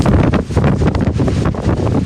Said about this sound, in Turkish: Bunaltıcı hava yerini soğuk ve şiddetli rüzgara bıraktı. Rüzgarın kaldırdığı toz, cadde ve sokaklarda görüş mesafesini düşürdü.